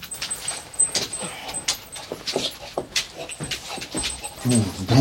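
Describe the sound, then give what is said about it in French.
A dog whimpers and pants excitedly in many short, uneven bursts, mixed with light rustling and movement. “Ça, c'est mon chien, ça. Ça, c'est mon chien. Il te reconnaît pas avec ton masque.”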